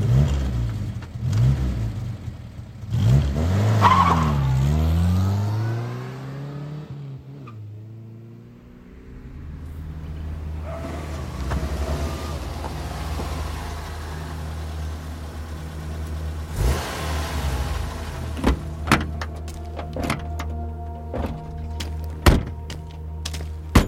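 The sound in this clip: A car's doors thunk shut, then its engine revs loudly as the car pulls away and accelerates, settling into a steady engine drone with occasional light knocks and no voices.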